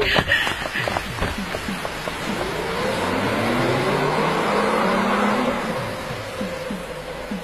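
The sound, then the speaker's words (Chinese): Cars drive off in a hurry with engines revving, a rushing road and motor noise that swells in the middle, where an engine tone rises and falls, then eases toward the end. “快上车，快上车、 啊、好好， 我们到芳草地去看一看、 啊、 快快走。”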